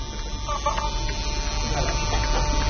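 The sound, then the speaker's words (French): An Ampex Nagra VPR-5 video recorder running with its cover open gives off a steady mechanical whir and hum, continuous and unchanging, with a faint tonal whine on top. “Alors ça, c'est un appareil ouvert dont on entend complètement le bruit. Le couvercle empêche le bruit d'être sorti.”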